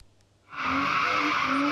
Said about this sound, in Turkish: Ankara'nın Keçiören ilçesinde trafik güvenliğini hiçe sayarak aracıyla drift atan bir kişi gözaltına alındı.